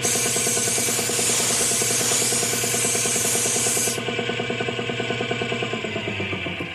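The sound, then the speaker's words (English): Spray painting with a paint gun: a broad, steady hiss over a pulsing motor hum. About two-thirds through the hiss cuts off, while the rhythmic hum carries on alone. “Give it another shot of paint over here, Mo. Hey, be careful it doesn't run there.”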